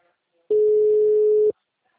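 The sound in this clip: A single steady ringback tone of an outgoing phone call plays at mid pitch for about one second. Silence comes before and after it.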